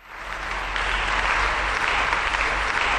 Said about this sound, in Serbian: Pijanista u smokingu. Klanja se. Aplauz. Cveće i još jedan bis.